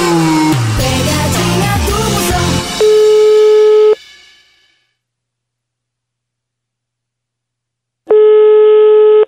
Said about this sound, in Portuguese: Vou ligar pra ver se pega.